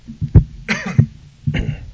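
Coughing and throat clearing from a sportscaster whose throat suddenly acts up: a few rough, fairly loud bursts separated by short pauses, with no talk between them.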